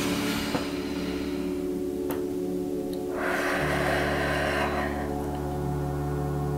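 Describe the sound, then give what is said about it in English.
A single deep breath into the belly, heard as a long, airy rush lasting about two seconds over a steady low hum. “Take a deep breath into your belly.”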